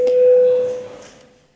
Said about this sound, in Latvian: Lūdzu zvanu.